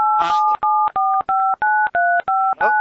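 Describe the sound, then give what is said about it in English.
Telephone keypad tones sound on a phone line during a call to a restaurant: a loud, quick run of dual-tone beeps, each about a third of a second long, separated by brief gaps. “Somebody got in on another line and dialed in.”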